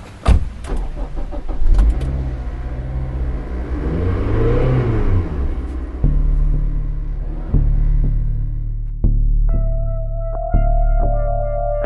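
A car engine starts and revs up and down, then pulls away through several gear changes. The rumbling engine note steps up each time, and a higher whine appears toward the end.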